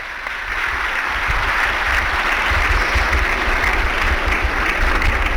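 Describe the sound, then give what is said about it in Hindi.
Loud applause from a large audience at a government ceremony, many hands clapping in a thick, continuous roar that swells slightly after the start and then holds steady, with a low rumble underneath and no talk. “एक बार जोरदार तालियां”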